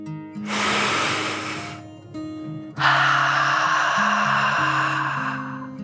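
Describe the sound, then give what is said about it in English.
Deep breath in and out: a long airy inhale, a short pause, then a longer, steady exhale, over soft sustained background music. “Charlie took another deep dragon breath, in and out.”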